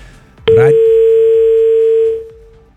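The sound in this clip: A telephone dial tone sounds after a dropped call on a call-in line: a short click, then one steady, unbroken single-pitch tone that holds loudly for about a second and a half before cutting off and fading out.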